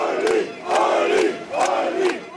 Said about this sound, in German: Jubel seiner Fans für Ulrich Siegmund, den Spitzenkandidaten der AfD, die um eine absolute Mehrheit kämpft.